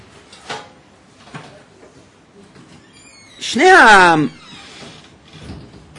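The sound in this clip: A single creaking door being closed, with a squeaky, wavering harmonic groan of under a second. Faint background noise comes before and after it.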